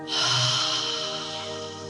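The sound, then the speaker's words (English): A long, deep breath out through the mouth, a soft airy rush that swells quickly and then slowly fades, over a steady sustained tonal hum. “Another deep breath in. And breathe out through the mouth.”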